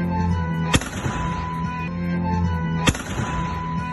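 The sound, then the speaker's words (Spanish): Two sharp, loud shotgun blasts fired into the air in the Plaza Mayor of Malpartida de Cáceres on Easter Sunday, spaced about two seconds apart over a steady background hum. “Es un vecino del pueblo que decidió seguir con la tradición del Domingo de Resurrección, salió a la Plaza Mayor del municipio y disparó al aire. El vídeo ha permitido identificarlo y denunciarlo. La Guardia Civil también le requisó la escopeta.”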